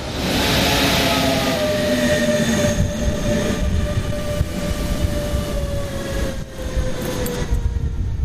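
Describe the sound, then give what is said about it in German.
A Deutsche Bahn Intercity train arriving at a station platform on its way to Norddeich Mole: a loud, steady rumble of rolling wheels with sustained high metallic squealing tones held throughout. “now arriving IC 24, 32 to Norddeichmole via Potsdam, departure 7:09 Uhr. Caution, the train is arriving.”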